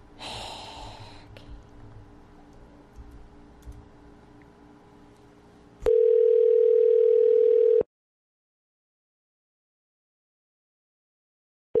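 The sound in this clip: Telephone dial tone, a steady loud single-pitch hum lasting about two seconds after a stretch of low rumbling noise. It cuts off into silence, then briefly starts again at the very end.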